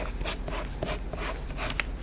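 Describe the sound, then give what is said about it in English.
A pen is scribbled back and forth to make it write, producing a run of short, scratchy rubbing strokes in an uneven rhythm, heard alone. “oh man, the pen is not writing on.”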